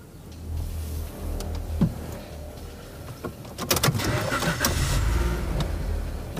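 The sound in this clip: A car engine cranks and starts. A few scattered mechanical clicks come first, then the engine catches and settles into a steady rumbling run.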